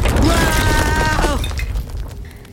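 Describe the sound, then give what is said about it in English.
A loud, rumbling crash as a floor collapses after a fire melts through it, a dense roar that slowly fades, with a voice briefly crying out over the start. “Looks like the fire melted through the floor.”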